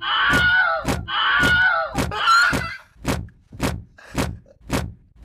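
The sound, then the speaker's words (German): Several doors creaking and banging at once: shrill, wailing creaks overlap a rapid series of heavy thumps. The creaking drops away halfway through while the bangs continue. “Warum wird das mehrere Türen gleichzeitig hier abspielen?”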